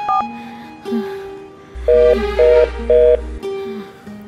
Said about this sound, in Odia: ଟିକେ ଫୋନ ଲଗେଇ ଦିଅନ୍ତୁନି। ତୋ ପୁଅକୁ ତ ଲଗଉଛୁ ଲଗଉଛୁ।